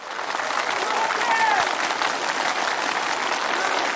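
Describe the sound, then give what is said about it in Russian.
A welcoming crowd cheers and applauds as a bus pulls away. The clapping and voices form a dense, steady wash of noise that holds at an even, fairly loud level throughout. “Снова раздались приветственные возгласы и аплодисменты.”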